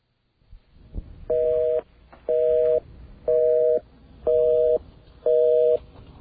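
Telephone busy signal on an AT&T call: five loud, steady two-tone beeps, each about half a second long and spaced evenly about one per second, with a faint low hiss before the first.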